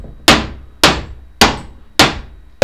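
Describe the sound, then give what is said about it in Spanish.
A hammer strikes a folding plastic chair five times at an even, steady pace. Each blow is a loud, sharp whack that bounces with a short hollow decay, and no voices are heard. “No, es que es plástico y al pegarle con el martillo rebota para atrás con bastante fuerza.”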